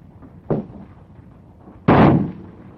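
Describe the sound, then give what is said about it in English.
Two sharp gunshots from a gun borrowed from a policeman. A short bang is followed more than a second later by a louder, longer blast with a brief ringing tail. “Stop kicking that left leg. That shot got him.”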